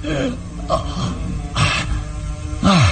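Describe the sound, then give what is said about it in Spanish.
A man gasps for air after a strangling cord is cut: a few heavy, ragged intakes of breath with raspy coughing sounds between them. “Y Calimán puede respirar profundamente. Su amplio tórax de gladiador se expande poderoso. Abre la boca para aspirar todo el aire posible.”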